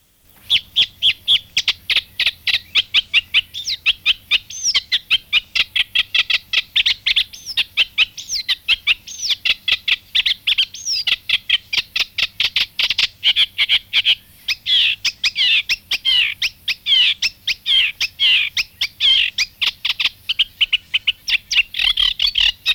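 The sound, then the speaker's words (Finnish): Eurasian reed warbler song: a long, loud and unbroken run of rapid, harsh chattering notes repeated in quick rhythm, heard alone without any voices. “Rytikerttunen.”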